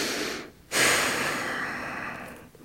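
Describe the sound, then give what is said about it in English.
A long, audible exhale during a guided breathing and stretching practice: a shorter breath fades out, then a loud airy rush of breath starts abruptly and slowly tapers off over about two seconds. “Exhale as you need.”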